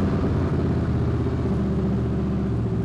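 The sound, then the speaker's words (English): The steady, low rumble of a 2018 Harley-Davidson Street Glide motorcycle engine, running evenly and continuously at a constant pitch. “That's a new Harley Street Glide. Harley is introducing the Street Glide for 2018.”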